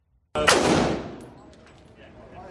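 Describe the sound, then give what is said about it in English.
A single loud gunshot from a man firing a gun, a sharp crack that bursts out suddenly and then fades into a long, rumbling tail lasting about two seconds. “when we checked his Instagram page, we found a number of videos of the suspect shooting guns.”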